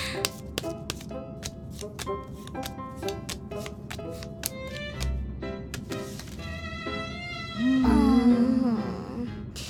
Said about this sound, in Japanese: ほら、カード配って配って